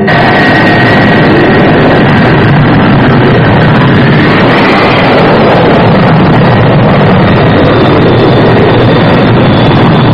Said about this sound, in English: Undercut down. Flaps down. Banking for final approach.